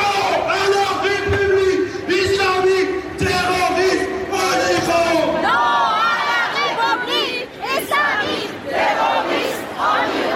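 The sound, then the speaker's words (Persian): Thousands of protesters chant while marching through Paris from Place de la Bastille to the central city hall, a loud, dense crowd of voices shouting slogans in unison with overlapping calls and cries. “هزاران تن در حالی که شعار می‌دادند و نمادهایی از مهسا و دیگر جان باختگان اعتراضات را در دست یا بر سر داشتند، از میدان باستیل تا شهرداری مرکزی پاریس راهپیمایی کردند.”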